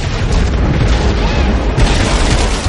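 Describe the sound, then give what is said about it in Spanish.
A bridge explodes in a zombie horror film, a loud, continuous roaring blast of dense noise that rumbles steadily across the whole moment without a break. “El puente estalla a su paso.”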